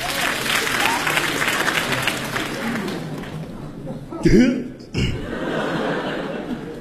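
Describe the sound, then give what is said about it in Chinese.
Audience applause mixed with chuckles at a crosstalk comedy show in a theater: steady dense clapping that swells briefly near the middle, drops off, then resumes, with a voice briefly heard over it. “感谢大家对我们的掌声， 谢谢您。”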